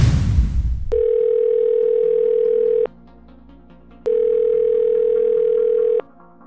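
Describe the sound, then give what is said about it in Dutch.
Telephone tone while placing a call: two long, steady mid-pitched tones separated by a pause, following a brief burst of noise at the start. “Ik zal anders mijn trouwe historische privédetective Joost even bellen.”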